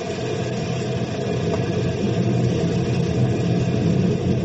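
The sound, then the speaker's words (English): Engine of a lifting device being put in gear, a steady loud low rumble that holds level throughout, with a broad mechanical drone and no talk. “Throw the lifting device in gear.”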